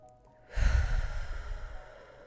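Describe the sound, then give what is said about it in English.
One deep breath drawn and let out, a single breathy rush of air lasting under two seconds, strong at the start and gradually tapering away, with no talking. “let's take a deep breath”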